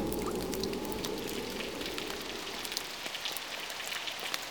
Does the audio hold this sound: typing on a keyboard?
no